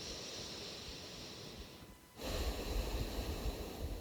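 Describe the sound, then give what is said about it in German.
Nasal breathing in and out through the left nostril with the right one held shut: airy, rushing breath noise, a steady stretch, a brief pause, then a louder, rougher breath. “das rechte Nasenloch zu und atmest nur links ein und aus. Nur links ein und ausatmen.”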